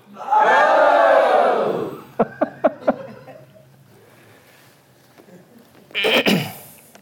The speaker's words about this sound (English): Could I just ask you to humor me and just all of you, just say really loud, ho! Ho!